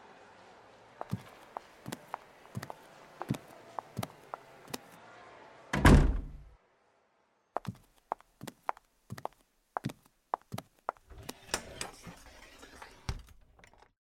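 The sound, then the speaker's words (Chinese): A door shuts in a restaurant with one heavy, ringing thud midway, surrounded by many sharp wooden clicks and knocks before and after. “门关上了吧？ 嗯，关上了。”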